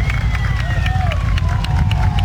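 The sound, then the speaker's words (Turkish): Crowd noise from football fans at Konya stadium greeting the Palestine national team with flares and chants: a dense, steady roar throughout, with a few thin whistle-like tones over it. “Konyalı taraftarlar kafileyi meşaleler ve tezahüratlarla karşıladı.”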